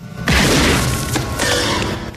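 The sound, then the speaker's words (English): Gunshots ring out in a Chucky horror film scene as Karen fires at the killer doll: a loud bang breaks a brief quiet, then a sustained crashing wash follows with a few sharper hits. “Karen blows his head off, and it bounces down the hallway. A headless Chucky advances towards her.”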